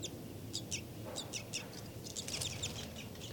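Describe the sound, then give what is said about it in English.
Flight calls from a bird come as an irregular series of short, high chirps, some single and some in quick clusters, faint over a low, steady background rumble. “Flight call series by 5-9.”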